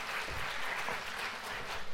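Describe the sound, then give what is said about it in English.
Applause from an audience welcoming a speaker to a church talk on evangelism: a steady, dense clatter of many hands clapping that holds at an even level throughout, with no voices. “Please join me in giving a very warm welcome to Dr. Jerry Root.”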